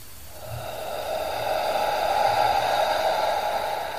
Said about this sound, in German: Und nimm zwei oder drei tiefe Atemzüge, gerne so tief einatmen, wie es für dich angenehm ist.